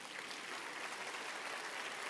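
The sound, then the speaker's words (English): Audience applause: steady, dense clapping that stays even and fairly faint throughout, with no voices over it. “And so it's worth clapping for.”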